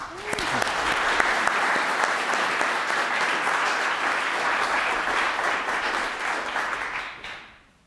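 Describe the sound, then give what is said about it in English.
An audience applauds to welcome a professor giving a lecture: steady, dense clapping that holds at an even level for several seconds, then fades out at the end. “So please join me in giving Professor Fossum a warm welcome.”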